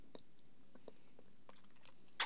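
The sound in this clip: Crunchy food being chewed, heard as a few soft, irregular crunches that stay faint throughout.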